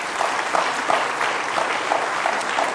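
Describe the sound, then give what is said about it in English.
Audience applause in a church service welcoming a visiting guest: steady, dense clapping from an audience that holds at an even level for the whole stretch. “She's visiting today. Give her a nice hand.”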